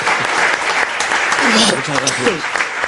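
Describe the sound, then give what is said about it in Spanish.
Applause from a studio audience welcoming a guest on a late-night radio program, a steady dense clatter of clapping over about three seconds, with a voice speaking over it. “Ese aplauso es para una persona queridísima por todos los oyentes y por todos los que hacemos el programa La Rosa de los Vientos, Escribano.”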